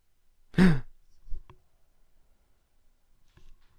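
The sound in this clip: A single loud, breathy exhale from a character in the Blair Witch video game, a heavy sigh-like breath followed by faint scattered clicks and near silence.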